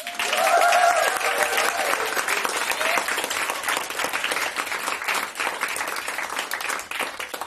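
Live audience clapping and cheering on request. Dense applause with shouts stays loud throughout, strongest at the start and easing slightly toward the end.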